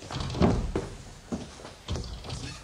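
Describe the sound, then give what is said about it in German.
Dull thuds and bumps of a stuck door being pushed and forced shut against resistance, a few heavy knocks at uneven intervals over a low, rustling background. “hilfst du mir mal mit der Tür?”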